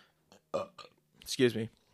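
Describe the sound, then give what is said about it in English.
A loud, gurgling burp comes after a few short vocal sounds and stands out clearly against the quiet. “hold on, I have to burp again. That was nasty.”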